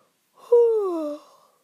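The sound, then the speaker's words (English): A single voiced yawn, its tone sliding steadily downward in pitch over about a second, fairly loud and alone with no other sound. “I have a third yawn already.”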